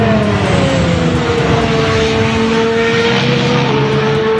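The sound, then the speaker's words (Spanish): A new Honda racing engine in an Aston Martin car runs with a loud, continuous roar, its droning tone holding steady and dipping slightly in pitch, with no talk over it. “Y en los deportes, así suena el nuevo motor Honda de Fernando Alonso.”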